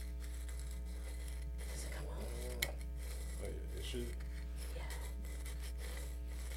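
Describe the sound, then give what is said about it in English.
A grinder being turned for ASMR gives a soft, gritty rasping and rubbing texture with one sharp tick partway through. Quiet talk runs underneath. “Enjoy this ASMR grinder.”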